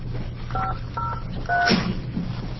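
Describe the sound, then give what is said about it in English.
Telephone keypad tones from a phone being dialled: three separate dialling beeps, spaced roughly half a second apart, over a steady low hum. “you want to try that phone once more while we call Carol Rahm and Martin and Kelly Taylor”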